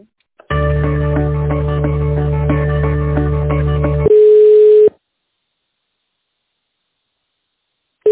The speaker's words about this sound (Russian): Да, секундочку, сейчас соединюсь.